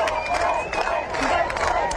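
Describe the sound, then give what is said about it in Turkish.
A volleyball crowd cheers and screams during a match against Brazil, a loud, continuous roar of voices with whoops and shouts rising and falling throughout. “Ben sustum ve size buradaki alkışı, insanların çığlığını siz duyun.”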